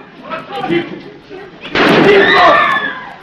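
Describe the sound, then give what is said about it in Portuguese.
A gunshot fired into the air to scatter guests, heard as one sharp, loud burst about halfway through, breaking over a busy, murmuring background that carries on after it. “Chico atira para o alto.”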